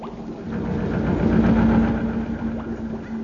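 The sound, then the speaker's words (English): Steady mechanical droning and rumbling of the giant combined-services Christmas pudding being machine-mixed in the great dry dock at Chatham, a continuous engine-like hum with a low throb that holds level throughout. “The sound you are now hearing is the great combined services Christmas pudding in the making. I'm standing by the great dry dock at Chatham in which the Christmas pudding is being mixed.”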